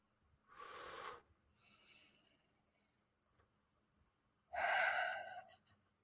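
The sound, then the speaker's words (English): A group of people take a deep breath together: a few loud, breathy rushes of air with short pauses between them. The last rush is the strongest, and no one talks. “I would like us all, before we even say anything else, on the count of three, to take a deep breath.”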